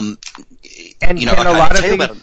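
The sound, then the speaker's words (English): A paper folder being pulled out to look through makes brief crinkly rustles and soft taps, then a voice starts talking over it. “I'm actually pulling out my folder now. Mm-hmm. Let me just have a look.”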